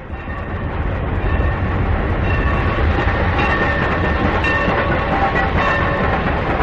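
A runaway passenger train rumbling along rails: a dense, loud, continuous roar of wheels and carriages with a faint metallic ringing above it, steady from start to finish with no voices.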